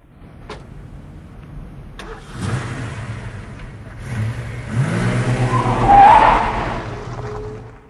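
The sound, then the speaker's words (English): A car pulling away outside at night: a low engine rumble builds, climbs to a louder revving peak, then tapers off, with no voices. “Jim wakes with a start as a car pulls away outside.”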